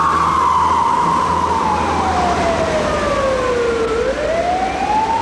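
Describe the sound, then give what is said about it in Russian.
Police car sirens wail loudly and continuously as two cars escort a UAZ Bukhanka van through Moscow. One long tone slides steadily downward, then swings back up near the end over a constant road rumble. “По Москве едет УАЗ-Буханка в сопровождении 2 полицейских машин со спецсигналами.”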